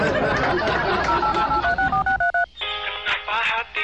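Touch-tone beeps sound as a number is keyed on a cheap mobile phone, a rapid run of short tones following a stretch of noisy background, then giving way to a steady layered electronic tone.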